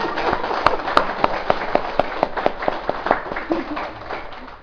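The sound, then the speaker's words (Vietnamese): Rhythmic clapping from an audience in a Buddhist practice hall, applauding monks and nuns. Sharp, evenly spaced claps repeat many times at a quick, steady beat, with voices talking underneath. “Bây giờ thưa đại chúng, không những chỉ vỗ tay cho sư chú Trúc Tịnh mà thầy đề nghị vỗ tay thật lớn cho các sư chú, các sư cô tương lai ở trong đạo tràng này thiệt to nè.”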